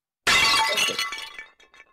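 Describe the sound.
A bowl breaking in one sharp crash, bright shattering noise that trails off into scattered tinkling fragments over about a second.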